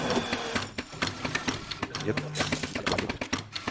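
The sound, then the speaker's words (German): An espresso machine with its grinder set one step finer and the temperature on low pumps in a fast, irregular mechanical clatter, ticking and pulsing like a sewing machine. “Man hört hier auch, dass die Maschine anders taktet.”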